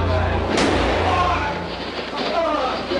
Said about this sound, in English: He's been shot. Lee Oswald has been shot. There's a man with a gun. Absolute panic here in the basement of Dallas Police Headquarters.